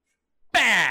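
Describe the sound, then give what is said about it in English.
A single loud, voiced burp that starts abruptly after a short soft sound, its buzzy tone sliding gradually lower in pitch as it fades. “I burped live.”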